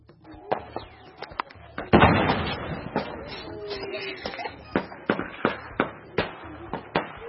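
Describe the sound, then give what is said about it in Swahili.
Gunfire from government army soldiers chasing suspected rebel fighters during morning clashes in eastern Congo: many sharp, irregular cracks, with a louder burst of overlapping shots near the start. “Huo ni mlio wa risasi kutoka jeshi la Jamhuri ya Kidemokrasia ya Kongo FARDC likikimbizana na wapiganaji wanaoshukiwa kuwa ni Maimai”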